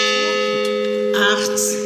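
A memorial bell tolls at a commemoration for victims, sounding a sustained, humming metallic tone with steady overtones, joined by faint, scattered higher noises near the end.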